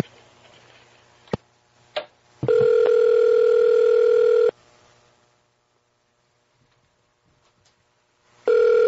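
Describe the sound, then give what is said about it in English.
Ringback tone of an unanswered phone call. A couple of sharp clicks come first, then a steady electronic tone for about two seconds, a long silence, and the tone starting again at the end. “They're not answering. Wait, give it another ring.”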